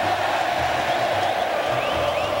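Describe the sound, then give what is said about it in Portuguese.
Grêmio fans fill a football stadium with a loud, continuous crowd roar before a match against Corinthians, a broad, even wash of many voices that does not break. “Solta o microfone aí, reportagem, para quem tá chegando, para quem tá no carro, quem tá em casa, olha o som da arena.”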